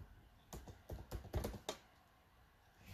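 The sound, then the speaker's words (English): Computer keyboard typing, a quick run of several faint keystroke clicks bunched together and then trailing off, with no talk over them. “Let me check how much Bone is. I'll let you guys know right now. Let me type it in. Hold on a second.”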